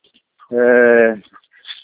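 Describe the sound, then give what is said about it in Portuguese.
A honking call from a henhouse with geese and chickens: one loud, harmonic, drawn-out cry lasting under a second, with faint chirps scattered around it. “eu estou num galinheiro com ganso e aí eles são muito barulhentos.”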